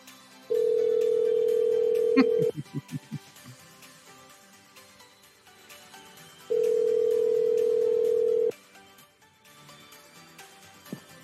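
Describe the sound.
A telephone rings unanswered during a prank call: two long, steady ringback tones separated by a pause of several seconds. A voice speaks briefly between them, and faint talk sits underneath.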